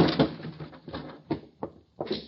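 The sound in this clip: A door is thrown open during a tense hallway scene in a detective drama, giving a loud creaking burst at the start followed by a few sharper knocks and scrapes.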